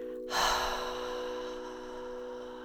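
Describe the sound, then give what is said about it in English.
One deep breath during a guided meditation, drawn in through the nose and let out through the mouth: a soft, airy rush rises and then slowly fades over a steady, quiet background tone. “taking a deep, full inhale through your nose, nice and slow, and a long exhale out through your mouth.”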